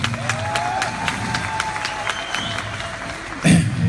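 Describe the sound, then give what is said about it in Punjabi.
Long audience applause for a group of elders from England at a Punjabi gathering, a steady wash of clapping with a faint sustained tone through it, swelling louder near the end. “ਇਹਨਾਂ ਬਾਬਿਆਂ ਦਾ England ਵਾਲਿਆਂ ਦਾ ਬੜਾ ਯੋਗਦਾਨ ਹੈ ਲੰਬੀ ਤਾੜੀ ਇਹਨਾਂ ਦੇ ਨਾਲ”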